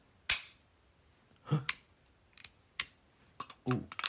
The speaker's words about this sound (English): Listen, 3, 2, 1. Sounds like every semi-auto pistol. Every single one.